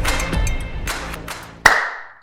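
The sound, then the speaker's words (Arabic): A single sharp hand clap cracks out near the end, its bright ringing tail fading away, after a stretch of softer, indistinct sounds. “صفقة حلوة.”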